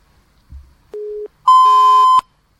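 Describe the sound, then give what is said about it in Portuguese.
Telephone tones after a call line drops: a soft low click, then a brief lower beep, followed by a longer, louder, steady higher-pitched electronic tone that cuts off abruptly. “A linha caiu.”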